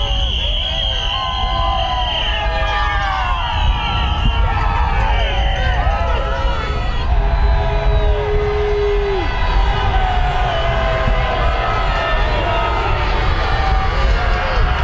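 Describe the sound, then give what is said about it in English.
A roadside crowd of critics cheering loudly as a vehicle drives past: dense, continuous shouting and voices with whistle-like tones layered on top, staying steady and loud throughout. “He was golfing in Virginia, driven home past his critics cheering.”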